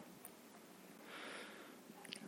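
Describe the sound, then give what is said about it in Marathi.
A slow, deep breath drawn in during a guided eyes-closed meditation, just before chanting Om three times. The inhale is a faint, soft hiss that swells in the middle of the otherwise very quiet moment. “श्वास घ्या”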